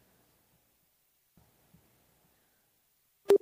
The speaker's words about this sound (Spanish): No me digas que cortó. No me digas. Hola, hola, hola. ¿Conectamos o no conectamos? Daniel, ¿estás ahí? Cortado.